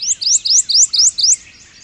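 Bird song at a large wildlife refuge on the Virginia-North Carolina border where warblers such as the Prothonotary Warbler nest: a rapid series of bright, high, upslurred notes repeated evenly, clear and loud, then fading out.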